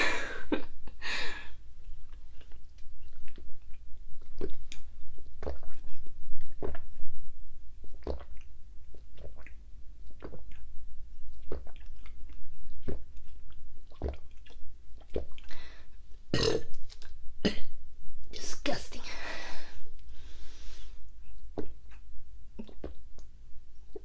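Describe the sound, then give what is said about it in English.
Throat gulps and swallowing while someone drinks from a bottle: many short, wet, clicky gulps in an irregular rhythm over a steady low hum, with no talking. “So, I got a bottle. I'm gonna drink it, and then you can be like, yeah. Yeah, those throat sounds.”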